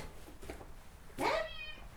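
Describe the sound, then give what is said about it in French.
A domestic cat that is always hungry gives a single clear, tonal meow, loud against a quiet low background hum and trailing off briefly. “Qu'est-ce que tu veux, toi? Ça, c'est le chat Mickey.”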